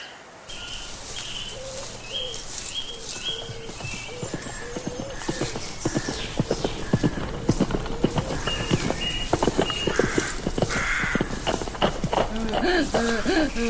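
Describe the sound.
A horse's hooves clip-clop in a steady, rhythmic stream of many sharp beats that carry on without pause, growing slightly louder and busier toward the end.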